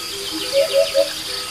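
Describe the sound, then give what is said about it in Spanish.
A hoopoe calls three evenly spaced, low hollow notes in a spring dehesa pasture. A faint steady background drone runs beneath the calls. “Y junto a la bubilla, pues habrá un cuco, el ganado que está pastando en la dehesa y toda la comunidad de biofónica que se expresa una mañana de primavera en la dehesa.”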